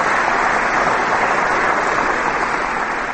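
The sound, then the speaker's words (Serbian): Dense, even clapping from Serbian Progressive Party supporters greeting Nebojša Stefanović as he arrives outside the Old Palace, a steady unbroken wash of hands that holds at the same level throughout. “upravo u tim trenucima Nebojša Stefanović pristigao ispred Starog dvora i dočekan je tapšanjem pristalica naprednjaka”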